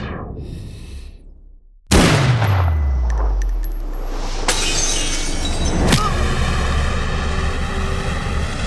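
Gunfire during an attack by jet aircraft: a sudden loud crashing burst with a falling-pitch roar, then sustained noisy rumble broken by a couple of sharp bangs.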